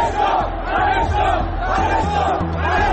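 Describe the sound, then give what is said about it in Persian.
Angry Sepahan football fans chanting slogans together, a loud, continuous mass of voices with a rhythmic, rising-and-falling chant. “لغو این بازی حساس خشم هواداران سپاهان رو هم برانگیخت و اونها شعارهایی برای جمع کردن مجسمه سلیمانی سر دادن.”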